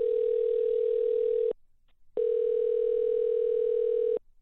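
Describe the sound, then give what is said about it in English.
Telephone dial tone after a number is dialed: a steady mid-pitched hum holding for about a second and a half, broken by a brief silence, then resuming for another long stretch before cutting off. “I dialed the number.”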